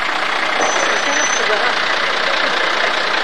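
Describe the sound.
A car's engine and road noise while driving, a loud, dense, steady roar with no breaks and a faint thin whine riding above it.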